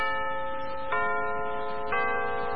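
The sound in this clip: A radio time signal chime marks six o'clock with a sustained, bright electronic tone. Two sharper accents about a second apart sit over the steady hum, with no talk.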